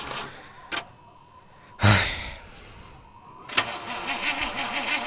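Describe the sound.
A car engine cranks but fails to start: a couple of short bursts, then a heavier crank, and finally a longer stretch of rhythmic churning that never catches.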